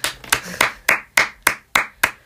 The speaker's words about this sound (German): Einen dicken Applaus von mir.